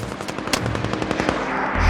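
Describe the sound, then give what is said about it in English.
Strafing gunfire in a firefight rattles out in rapid, dense bursts of shots, loud and nearly continuous, with a deeper thump at the very end. “Oker waits expectantly, then peeks out to see more strafing gunfire strike the unmoving Chutsky.”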